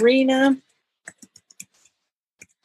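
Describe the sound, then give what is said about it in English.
Typing on a computer keyboard: after a brief voice, about seven soft, irregularly spaced key clicks sound faintly against silence. “Okay, I'm typing it here too.”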